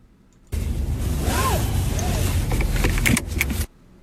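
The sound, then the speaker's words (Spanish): Car seatbelt webbing drawn out in a continuous rasping whir lasting about three seconds, followed by a few sharp buckle-like clicks near the end. No other sounds are heard. “El cinturón del carro.”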